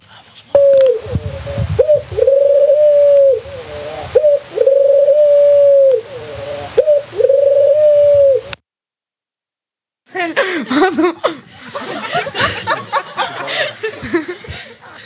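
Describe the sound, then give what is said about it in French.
A turtle dove coos in many rhythmic, repeated phrases of low, soft, hollow notes with short gaps between them. After a brief silence, a stretch of other, noisier sound follows. “Oui, la réponse est la tourterelle.”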